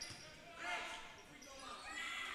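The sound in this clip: A basketball is dribbled during a high school boys' game, a few dull bounces over steady background noise.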